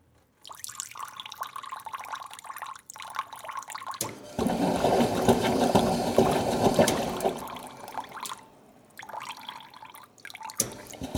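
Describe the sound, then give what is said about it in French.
Flowing water with a steady splashing rush that swells louder for a few seconds in the middle, then eases back to a lighter trickling flow with drips. “L'eau qui coule, l'eau qui coule, l'eau qui coule”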